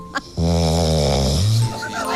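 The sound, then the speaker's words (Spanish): A dog snoring: one long, low, buzzing snore with a rough rumbling tone, holding steady for over a second before cutting off, then faint breathing noise. “también hay cuatro patas que roncan. Aquí va mi perro. Es un perro, no es una persona”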